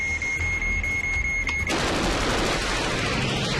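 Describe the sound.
Gunfire in a jet dogfight scene from a film: a steady high electronic tone cuts off, then a long, dense, roaring burst of rapid cannon fire fills the rest.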